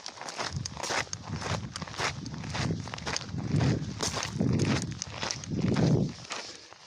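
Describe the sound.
Footsteps crunch over gravel on a hiking route, a steady walking rhythm of many gritty steps that grows louder toward the end.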